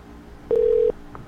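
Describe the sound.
A telephone tone as a call is dialed: one short, steady electronic beep of under half a second. It sounds alone over a quiet, faintly humming background.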